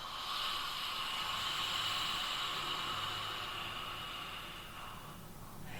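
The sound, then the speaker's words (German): A deep breath during a guided relaxation breathing exercise, drawn in through the nose and let out through a wide-open mouth, heard as a long, steady, airy rush with no talking. “Und ein letztes Mal durch die Nase einatmen, tief in den Bauch. Und durch den weit geöffneten Mund raus.”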